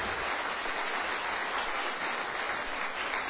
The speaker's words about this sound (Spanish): Gloria al Señor, dale un aplauso al Señor.